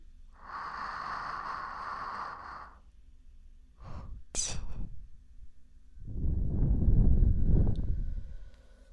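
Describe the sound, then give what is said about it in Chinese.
Deep, breathy inhalations at a relaxation parlor: a long airy intake comes first, then a few short sharp breaths, then a lower, heavier drawn breath that fades. No other voices are heard. “吸气。”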